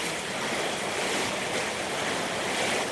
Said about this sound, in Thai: แล้วก็จะเติมน้ำลงไปอีกหน่อย น้ำลงไป